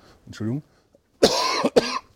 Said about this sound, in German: mal noch die Nachwirkungen des zweiten Strichs, die Verschleimung lässt sich noch nicht so ganz beseitigen, jetzt bin ich mal am Husten.